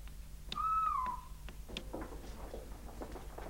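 A whistled imitation of a scops owl call: one steady, mid-pitched tone lasting about half a second that dips slightly at its end, followed by faint scattered clicks over low background noise.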